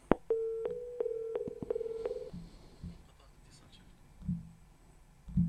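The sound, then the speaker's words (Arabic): Telephone line tones as a phone-in call is cut off: a steady low electronic tone broken by sharp clicks runs for about two seconds. Quieter low thumps follow, with no talking over the tones. “قطع اتصال.”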